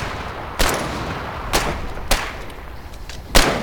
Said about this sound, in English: Oh, stop shooting at it. That's nothing. It doesn't hurt it. We need explosives.